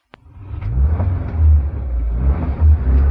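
A dirty red Lada car driving off, a deep, steady engine rumble that swells and wavers after a brief sharp click at the start, with no voices.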